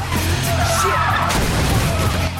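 A car in a street race skids and swings out of control into barrels. A tire squeal rises briefly over a loud rough roar of engine and impact noise.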